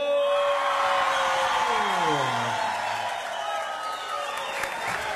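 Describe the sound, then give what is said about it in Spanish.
Audience clapping hands at a live show with football fans in the crowd. Dense, steady applause carries throughout, mixed with shouts and whoops and one voice gliding downward early on. “Y comenzamos con las palmas.”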